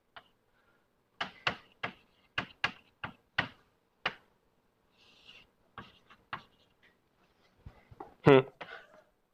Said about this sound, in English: So I'm gonna write it like this. Tau plus delta tau.